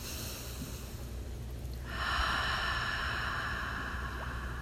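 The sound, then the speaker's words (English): A deep, slow breath during a guided meditation, heard as a soft airy rush that swells partway through and holds as a steady hiss to the end, with no talk. “Taking that deep and slow breath. Once more.”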